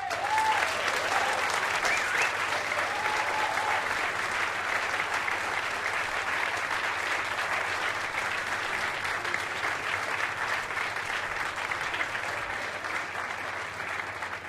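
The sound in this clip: An audience at the 2009 Newport Jazz Festival claps to welcome a performer to the stage, with dense, even applause that holds steady and loud for the whole stretch before easing slightly at the end.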